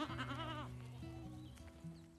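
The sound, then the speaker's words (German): Goats in a herd out on a heath bleat faintly, one wavering, quavering bleat followed by lower, steadier calls. “Also sehr gemütlich kann das sein in der Warner Heide und ganz besonders schön, wenn man mit einer Ziegenherde unterwegs ist.”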